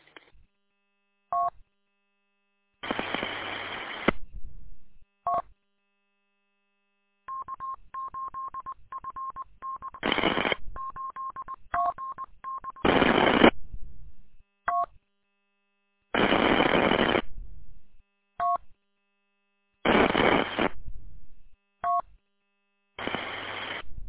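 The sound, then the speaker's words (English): Telephone keypad dialing tones come in several separate bursts with silent gaps between them. A longer, buzzy stretch of rapid pulses sits in the middle. “Oops, got a phone call. I'll be back.”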